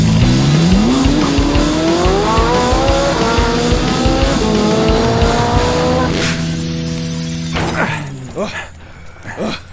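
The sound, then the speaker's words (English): A VMAX motorcycle engine revs hard and climbs steadily in pitch as it crashes through a one-way mirror, followed by sharp bursts of shattering and crashing as the roar fades. “Why'd you crash your VMAX through the one-way mirror?”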